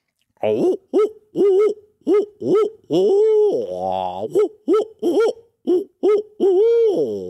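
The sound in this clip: A voice imitates owl hoots by mouth as a turkey-hunting locator call. Many loud, rhythmic hooting notes arc up and down in pitch, with a drawn-out wavering hoot in the middle of the series.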